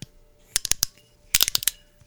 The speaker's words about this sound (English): This first sake, let's get it open and get it in the glass.